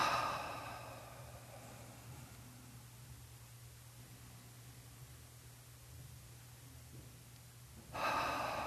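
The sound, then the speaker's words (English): Slow deep breaths during a seated guided relaxation, faint against a steady low hum: an airy breath fades over the first second or two, then a long quiet stretch, then another breath starts near the end. “And just take a few deep breaths.”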